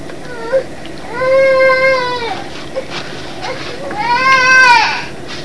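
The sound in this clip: A young child crying in a temper tantrum in a motel room: two drawn-out, high, wavering wails separated by a short pause, over a steady low hum and a few faint clicks.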